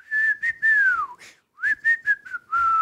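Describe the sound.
A person whistles a tune back, clear high-pitched melodic notes with a few gliding falls, in two phrases separated by a short pause.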